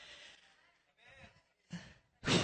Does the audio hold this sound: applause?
no